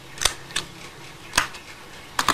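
Scissors snipping along a straight cutting line, a few crisp, sharp cuts spaced irregularly, ending with a quick cluster of snips.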